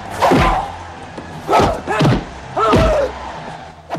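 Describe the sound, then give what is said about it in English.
Prison inmates cheering at a fistfight: loud bursts of shouting and yelling voices rise and fall in several waves, with dull thuds mixed in. “The inmates cheer at the fight.”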